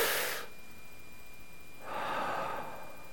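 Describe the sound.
A group of people draws a deep breath together, holds it and lets it out. A brief breathy rush comes at the start, then a quiet pause, then a longer, steady breathy exhale.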